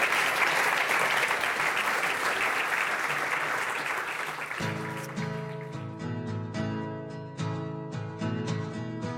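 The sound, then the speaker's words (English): Audience applause at a talk on water, weather and wildfires in California: a dense, loud wash of clapping fills the first half, then gives way to music with steady tones and regular beats. “All right, let's give them a round of applause for getting through the”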